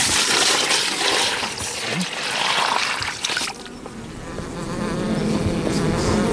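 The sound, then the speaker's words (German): Honeybees buzz in a crowded hive kept by a migratory beekeeper, a dense, steady, loud hum of many wings that continues throughout. “Da sind alle Wabengassen besetzt und es sind viele Bienen im Stock.”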